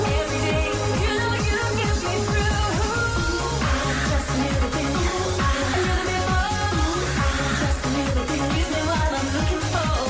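A pop song from a supermarket advert plays loud and unbroken, driven by a punchy, regularly repeating bass beat under a dense, bright mix.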